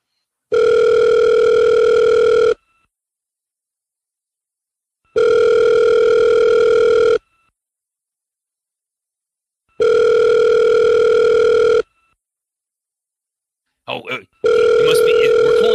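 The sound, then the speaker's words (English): A telephone line tone plays as a call is placed. There are three long, steady, mid-pitched tone bursts separated by silent gaps, then a brief clatter and a fourth tone beginning. “can you get us on the line right now and dial for us? Let's do it.”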